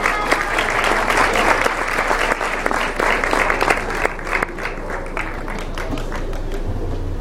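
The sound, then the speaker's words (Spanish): Audience applause at a conference honoring deputies, a dense, steady wash of clapping that stays loud and even throughout, with a faint voice underneath. “Por favor, fuerte aplauso.”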